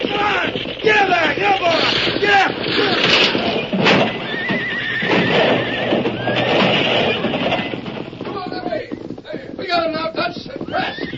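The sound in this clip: Horses gallop with riders during an ambush on a stagecoach, hooves clattering steadily under loud, repeated whinnies and neighs, with shouting voices mixed in throughout.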